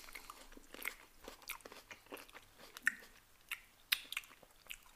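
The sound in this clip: Faint chewing of a marshmallow-like candy: irregular soft crunches and wet clicks with a few sharper bites standing out, and no talk.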